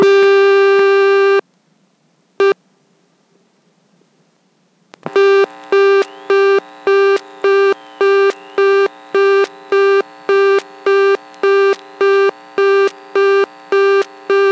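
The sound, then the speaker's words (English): Reorder tone from an all-relay telephone switch, heard after a second dialed digit: a steady tone cuts off, a brief blip follows, and after a short silence a loud, fast, regular on-off beeping begins and continues. “In every mode, there were some digits that did things and others were intercepted by reorder. Here's one of those interceptions on a second digit dialed.”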